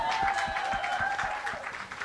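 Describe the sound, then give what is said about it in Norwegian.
A short burst of applause for a colleague, dense and steady clapping that lasts about two seconds over a faint sustained tone. “Applaus for Anette.”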